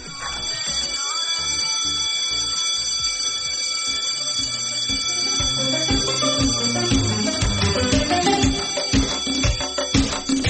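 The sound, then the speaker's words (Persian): A school break bell rings in a long, continuous metallic trill. Steady bright ringing holds throughout while rhythmic low thumps build underneath. “زنگ تفریح بزن بده.”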